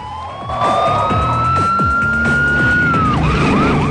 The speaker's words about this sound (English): As he rumbles up the ramp, a police car shoots past the entrance.